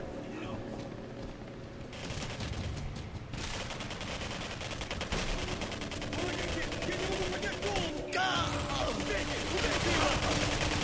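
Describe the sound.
Video game gunfire plays almost without pause: dense, rapid bursts of shots run through the whole stretch at a fairly steady loudness.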